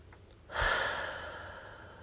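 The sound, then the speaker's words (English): One deep breath, a sudden breathy rush that swells quickly and then trails off slowly over more than a second. It is heard alone against near silence. “Take a moment and breathe. Like we did a minute ago in the podcast, right? Like I'm going to do right now.”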